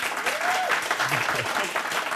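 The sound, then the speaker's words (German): Studio audience applause for a guest calling in live from Tromsø, Norway: loud, dense, even clapping that holds steady from start to finish, with faint voice sounds underneath. “Bitte mal einen Applaus für Uli.”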